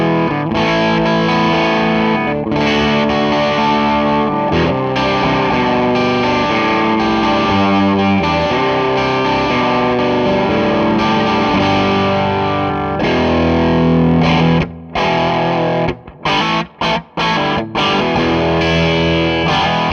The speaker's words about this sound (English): I'll remind you what the clean sound is, and then I'll kick in the pedal at kind of a medium setting, and then we'll go from there.